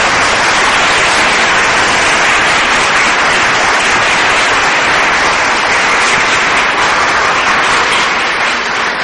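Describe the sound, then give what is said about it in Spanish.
Congregational applause during an evangelical church service: a dense, steady wash of clapping that stays loud and even for the whole stretch, with no pause or swell. “Den un aplauso al Espíritu Santo.”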